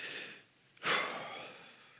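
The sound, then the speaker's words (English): A single deep breath drawn in at a slow, calm pace, rising to a soft rush of air and then trailing away quietly on its own. “Take a deep breath.”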